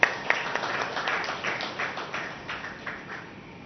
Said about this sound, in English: So please put our hands together and welcome Brother Sachin.